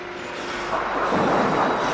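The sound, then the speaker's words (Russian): Thunder from a severe thunderstorm rolls as a deep, continuous rumble that swells louder partway through and holds there, with no voices. “Какая ужасная гроза.”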